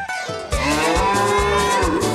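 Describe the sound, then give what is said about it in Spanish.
A bull lows in one loud, drawn-out, deep moo lasting about two seconds. The tone is rich and pulses throughout the call. No other sounds are heard. “Anda bravo el toro porque está lloviendo”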